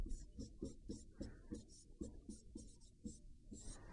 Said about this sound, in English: So I just write that.